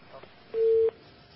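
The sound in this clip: A phone call disconnects with a single short, steady beep at one pitch, sounding over a faint hiss on the line.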